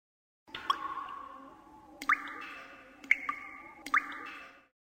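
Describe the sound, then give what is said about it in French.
Water drops fall in a cave, four resonant, pitched plinks spaced a second or so apart, each leaving a ringing tail over a faint, steady wet background. “Des gouttes d'eau.”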